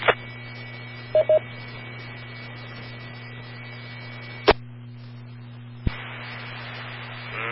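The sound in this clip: DTMF tones dialing a star code on a ham radio autopatch: two brief dual-tone beeps in quick succession over a steady mains hum and static, later followed by a couple of sharp clicks.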